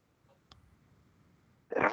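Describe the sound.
A single short, sharp human sneeze bursts out at the end after near silence broken only by a faint click.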